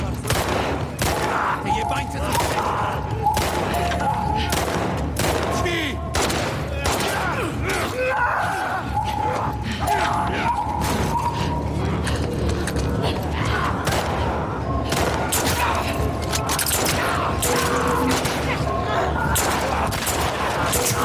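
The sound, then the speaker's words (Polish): Gunfire rings out in a video game as a player shoots with a pistol, with many sharp bursts and crackling reports packed densely over a continuous, loud backdrop of mechanical clatter and sustained tonal game music. “Ach, dobra, strzelamy. Amunicja do pistoletu.”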